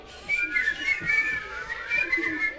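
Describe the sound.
Several people whistle together on command during a game of Simon Says, their overlapping high tones sustained and uneven throughout, with no talking.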